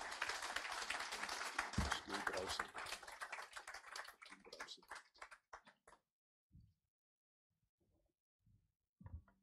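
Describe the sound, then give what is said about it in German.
Congregation clapping hands in welcome during a church service: dense, loud applause for about five seconds that thins into scattered claps and dies away, leaving near-quiet with a few faint sounds. “And so with a big hand clap offering, let's welcome Pastor Ingolf.”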